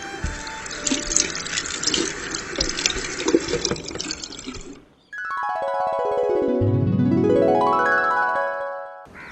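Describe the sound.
Water runs from a tap while someone washes their hands, a steady hissing rush for about five seconds. It cuts off abruptly, and a twanging, boing-like tonal effect follows.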